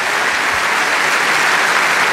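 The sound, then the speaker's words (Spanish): Congregation applause in a church service, a loud, unbroken blur of many hands clapping at a constant level through a short two-second stretch. “Entonces su aplauso está muy triste, hermano, porque no creo que de verdad esté gozoso por lo que le estoy diciendo.”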